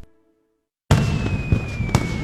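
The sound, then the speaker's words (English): Fireworks going off at a lakeside Independence Day fireworks show: a sudden loud blast breaks a near silence, followed by a few sharper bursts over a continuous crackling rumble. “Join us for Johnson Lake's Light Up the Lake Fireworks Show, Friday, July 3rd at 10 p.m.”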